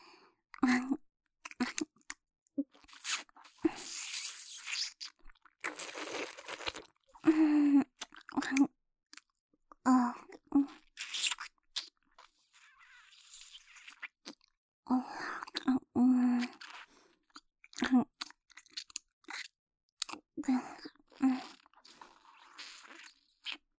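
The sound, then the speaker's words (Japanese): Wet biting and chewing mouth sounds come as many short, irregular smacks and crunchy bursts, with quiet breathy gaps between them. “噛まれるの本当に好きね。じゃあいっぱい噛んであげる。”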